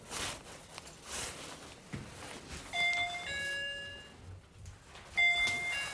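A doorbell chimes with clear ding-dong tones, ringing twice with a pause between, over soft background rustling.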